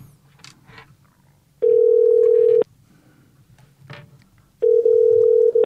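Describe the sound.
Ringback tone of a telephone call connecting: two long, steady electronic tones, each lasting about a second, with low line hiss and a few faint clicks between them and no speech.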